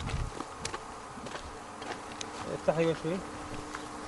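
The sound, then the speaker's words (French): Bees buzz around beehives scattered through a valley in a faint, steady insect drone, with short louder passes as individual bees fly close. “Tous les jours, il inspecte ses ruches éparpillées dans la vallée. Ses employés, eux, ne s'éloignent jamais bien loin des abeilles.”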